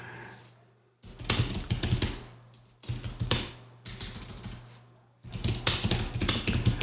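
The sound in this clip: Rapid keystrokes on a computer keyboard as someone types up an invoice, coming in several dense bursts separated by short pauses, over a steady low hum.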